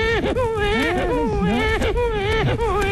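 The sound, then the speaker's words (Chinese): A person imitates a crying baby with a continuous, wavering, whimpering wail whose pitch bends up and down across three seconds. “小孩哭啊、听着， 学吧， 小孩哭是不是？”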